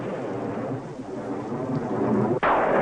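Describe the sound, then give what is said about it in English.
Pouring rain with thunder: a steady, dense hiss of heavy rainfall, broken near the end by a sudden sharp crack after which the roar grows louder. “Leo stares out at the pouring rain”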